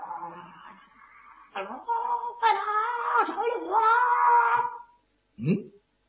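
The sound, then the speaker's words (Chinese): Wailing and moaning voices rise in a commotion in a military camp at night: a long, wavering cry that swells as more voices join, then a brief silence and one short final outburst. “就听见军营之中是一阵骚乱”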